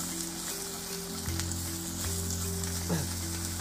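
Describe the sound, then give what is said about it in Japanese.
Shrimp and onions sizzling in a frying pan while cooking shrimp in chili sauce, the shrimp scorching. A steady crackling hiss runs throughout over a constant low hum, with no talk. “エビ完全に焦げてるわやったなこれ玉ねぎと一緒に入れるんじゃなかった玉ねぎから炒めるべきだった”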